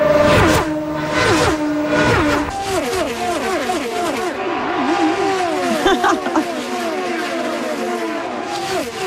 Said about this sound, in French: Ah, mais qu'est-ce? C'est la course automobile qui s'en vient dans la grande région de Toronto, à Markham